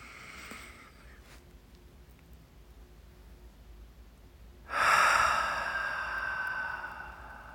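A deep breath drawn in during a guided relaxation breathing exercise: faint breathing at first, then a long quiet stretch, followed by a loud, airy inhalation that holds for a couple of seconds before easing slightly.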